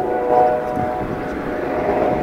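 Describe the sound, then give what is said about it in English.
A police helicopter flies overhead in Harborne, Birmingham, giving a steady, droning hum with a tonal whine that holds at an even loudness. “We've got a bit of action with the police helicopter.”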